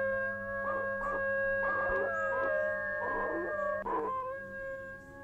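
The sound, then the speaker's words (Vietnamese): A person howls like a dog, a long, steady wail with several wavering surges of strength, the voice imitating the animal throughout. “Tôi vội bịt mồm, không hiểu tại sao bản thân mình lại chu lên như thế.”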